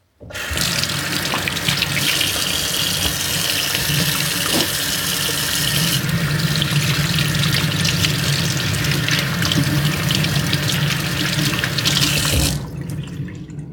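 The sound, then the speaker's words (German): Tap water runs steadily into a sink as hands are washed, a loud continuous splashing rush that holds for about twelve seconds before it stops abruptly. “Als erstes natürlich die Hände waschen.”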